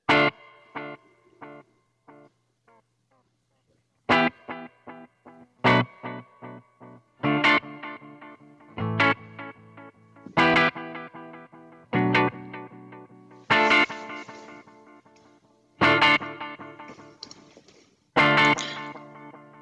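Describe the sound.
Surf-style electric guitar tone through an Earthquaker Dispatch Master reverb pedal, with picked single notes and strummed chords, each ringing out in a wash of reverb and decaying before the next, played alone.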